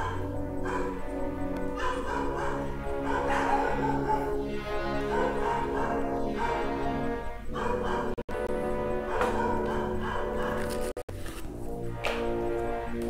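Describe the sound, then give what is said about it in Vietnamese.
A dog barks and yips over and over, with high whining, whimpering tones mixed in. The barking is loud and nearly continuous for more than ten seconds, with only two brief breaks. “Bắt đầu đến giờ chó sủa. Bắt đầu đến giờ chó sủa.”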